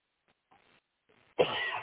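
A sharp, loud cough bursts out near the end and holds for about half a second, after a stretch of near silence broken only by a few faint, soft rustles.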